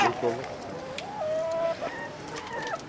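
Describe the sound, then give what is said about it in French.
A rooster crows in a long, strained, wavering call. A second, shorter crow follows near the end. “Le coq qui veut pas mourir.”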